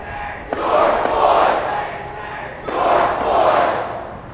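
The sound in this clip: A protest crowd chants, led by the organizer at a rally about defunding the police. Two loud, sustained chant phrases swell and fade with a short gap between them.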